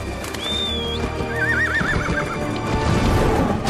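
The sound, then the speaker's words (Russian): A short whistle is followed by a horse's wavering, high whinny on a snowy mountainside during a battle, heard over a dense, loud background of noise. “свистом подзывает коня”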